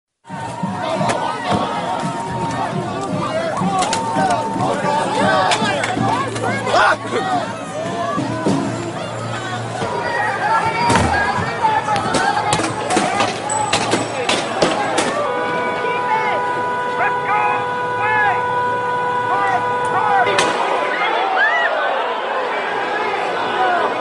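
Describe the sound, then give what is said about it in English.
Protesters, including black bloc members, attack vehicles: many sharp bangs and thuds ring out amid loud crowd chatter and shouting that continue throughout. “Some sounds of protesters, including some members of the so-called Black Bloc, attacking vehicles”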